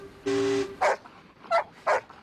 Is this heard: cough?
no